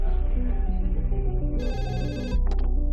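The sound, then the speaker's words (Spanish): A telephone rings with an incoming call, a loud, continuous melodic ringtone with dense, layered tones. A brighter, higher burst cuts in partway through, and no one speaks. “reciben una llamada de la Cruz Roja de Madrid.”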